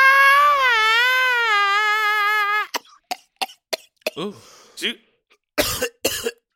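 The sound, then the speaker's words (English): Coughing and hacking from someone with a small piece of fake bacon stuck in the throat: a long wavering voiced strain, then many short, sharp coughs and throat-clearing bursts. “Got a little piece of fake bacon stuck in my throat.”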